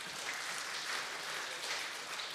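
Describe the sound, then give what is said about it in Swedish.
Audience applause: dense, steady clapping from a group that holds at an even level throughout, with no voices over it. “Vi kan ge min medhjälpare en applåd tycker jag. Det ska han få.”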